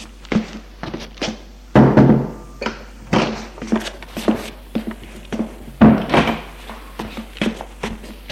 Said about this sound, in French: Elle frappe et entre.